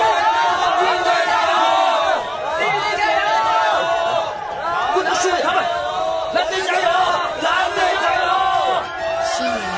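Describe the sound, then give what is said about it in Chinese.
Crowd cheering and chanting in unison for the Blue team at a Byzantine chariot race, a dense, loud roar of many voices with rhythmic shouts repeating throughout. “132的这场大赛车，查士丁尼大帝带着皇后也来到赛车场观赏，并且为蓝队加油。”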